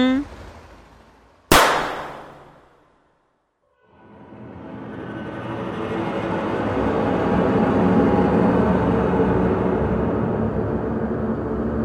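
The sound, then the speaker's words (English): One sharp, loud crack of a shot from a tiny toy-sized pistol decays quickly into silence. After a short gap, a broad, steady roar swells up and holds. “You know, we really went and fired that tiny pistol.”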